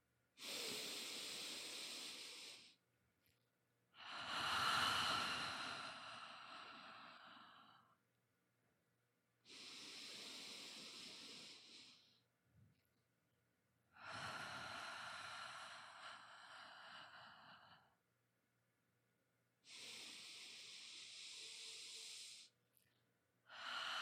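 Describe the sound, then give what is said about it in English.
Slow, deep breaths taken one after another as a guided breathing exercise, each a long, breathy rush of air, with short silences between them and no talk. “So let's take three deep breaths together.”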